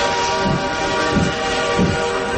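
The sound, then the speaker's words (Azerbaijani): A train departs as a sound effect: a steady, loud rail rumble with a low, regular pulse recurring several times throughout. No voices are heard. “Dikkat, dikkat! Seçki qatarı 101.7 FM stansiyasından yola düşür.”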